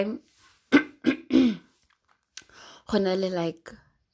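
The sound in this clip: Throat clearing from someone with something caught in the throat: several short, rough bursts, then, after a pause, a longer strained voiced sound.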